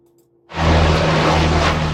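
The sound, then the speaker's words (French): Sudden, loud, steady engine roar of a firefighting water bomber aircraft flying over a large forest fire in Gironde, southwest France, in heatwave conditions. It bursts in after near-silence and holds a broad, sustained rush with a low droning hum. “La lutte contre le feu vient entre autres du ciel. Des avions, dont des canadaires, effectuent des largages sur de larges zones.”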